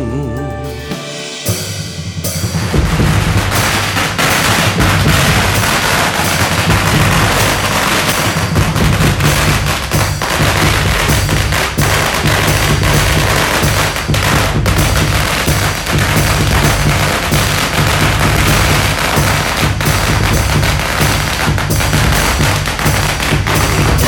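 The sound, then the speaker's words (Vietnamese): Fireworks and firecrackers burst in dense, rapid, loud crackles throughout a Lunar New Year celebration, continuing without pause over a steady low hum. “Pháo hoa tung bừng khắp nơi vui mừng”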